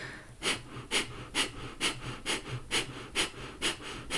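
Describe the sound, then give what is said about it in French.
Rhythmic forced exhales in a breathing exercise, each breath pushed out hard as the navel draws toward the spine: about nine sharp, breathy puffs at a quick, even pace, with no talking. “à l'inspire, on inspire aux trois quarts et on expire en forçant ici le nombril vers la colonne vertébrale.”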